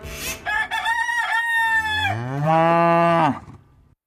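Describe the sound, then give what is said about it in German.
Farm livestock and chickens: a rooster's crow is followed by a long, loud, low cattle moo that holds steady and then cuts off, with nothing else heard around them. “Die Farm.”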